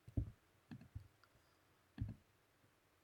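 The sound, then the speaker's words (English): Taps on a phone while notes are typed: a few soft, dull clicks at irregular intervals, with a pause before a final cluster, quiet and without talk. “Sorry if I'm pressing phone. I'm trying to make notes because I have a word.”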